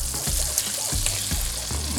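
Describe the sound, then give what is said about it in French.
Morel soaking liquid is poured into a hot pan and sizzles with a steady, bright hiss, broken by a few soft bubbling bursts, with no voices. “ici on rajoute un petit peu donc du liquide dans lequel on a fait tremper les morilles pendant 12 heures”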